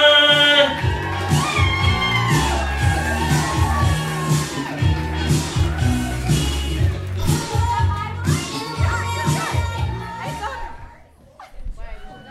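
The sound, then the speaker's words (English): A live show audience in New York cheers and whoops as the hosts are introduced, with loud, sustained crowd noise that drops away near the end. “Yeah, let's make some noise, ladies. We have some awesome folks here for you tonight. Let's put our hands together for the ladies of three girls. Zero Filter!”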